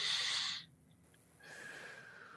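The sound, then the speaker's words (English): A deep breath taken in during a short visualization exercise: a brief airy rush at the start that cuts off abruptly, followed by near quiet and then a faint, steady high hum. “take it all in and then take another deep breath in”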